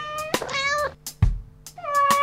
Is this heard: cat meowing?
yes